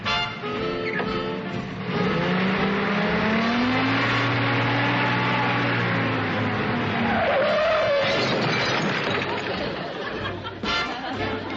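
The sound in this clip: Tires skid and squeal as a jeep drives off, a sustained screeching that bends up and down in pitch over a continuous engine roar and stays loud throughout.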